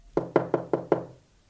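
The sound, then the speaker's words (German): Five firm knocks on a door in a corridor, evenly spaced and quick, each a hollow, punchy thud that rings out briefly before the next, followed by quiet. “und klopfte an eine Tür”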